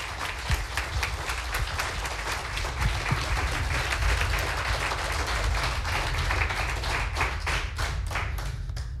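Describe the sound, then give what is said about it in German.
Audience applause at a contest show before the finale: dense, steady clapping from a crowd that holds at an even loudness throughout, with sharper individual claps standing out and no voices. “Bitte applaudiert noch einmal für alle drei”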